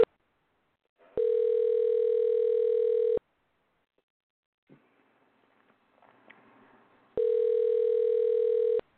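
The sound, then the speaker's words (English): Telephone ringing tone on a call placed to a guest: two steady, even tones of about two seconds each, separated by a quiet pause of about four seconds with a few faint clicks. “I will dial him and we will get him on with us.”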